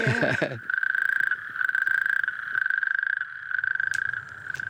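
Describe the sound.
Toads give a sustained high, buzzing trill that pulses rapidly and continues with brief gaps. A short voice is heard at the very start.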